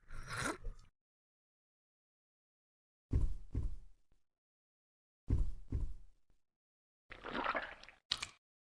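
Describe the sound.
Faint sipping and gulping sounds in a video game as a character drinks green liquid from a jar marked with a skull: a few short wet bursts separated by silences, with no talk.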